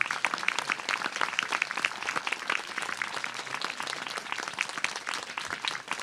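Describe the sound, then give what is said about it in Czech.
Audience applause at a spiritual gathering where flowers are offered: dense, crisp clapping that stays fairly steady throughout, with no voices. “dejte mu ten největší potlesk, jak to jde.”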